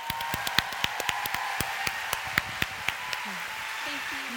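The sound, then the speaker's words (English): An audience applauds to welcome a performer on stage, heard as many crisp, evenly spaced claps in a steady rhythm that stop toward the end. “Would you put your hands together and make welcome Lisa Turkers?”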